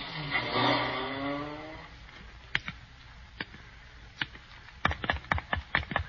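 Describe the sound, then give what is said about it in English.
A taxi cab drives off with a rising engine drone that drops in pitch and fades over about two seconds, leaving quiet, scattered clicks and ticks. “Here's my house, cabbie. Pull up. That was real driving, buddy. Keep the change.”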